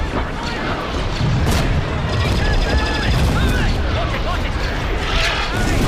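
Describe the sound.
Blaster laser fire in a battle, with a lightsaber deflecting the bolts: dense, overlapping zaps, whines and booms over a constant, loud din of combat.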